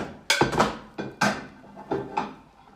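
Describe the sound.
Plates being handled at an outdoor picnic: several sharp clattering knocks of crockery being lifted and set down, arriving in irregular pairs with brief pauses between them. The sounds are moderately loud and heard without talking.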